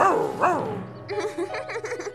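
A cartoon dog barks twice in quick succession, loud and arching in pitch, followed by a quieter stretch of short, repeated sounds.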